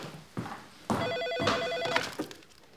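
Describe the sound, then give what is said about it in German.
A telephone rings in one short electronic burst, a warbling tone of rapidly alternating pitches lasting about a second, set among scattered background noise and thumps. “Ja, wir sehen, irgendwann kommt der Anruf.”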